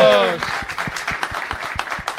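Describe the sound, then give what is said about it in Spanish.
A studio audience claps in a steady, quick rhythm, the claps sharp and evenly spaced, after a voice that is briefly heard at the start. “¡Aplauso, claro!”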